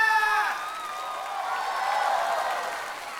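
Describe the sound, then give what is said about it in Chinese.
Audience applause and cheering for a singer finishing a stage performance; a brief high tonal sound opens it, then a sustained crowd roar of clapping and cheers continues at an even level. “掌声给圆圆。”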